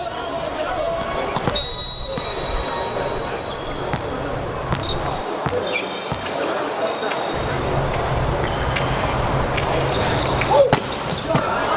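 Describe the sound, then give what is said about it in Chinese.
A volleyball serve is struck during a match, giving a sharp, brief impact beneath continuous commentary and steady background crowd noise. “范杨莫奇发球”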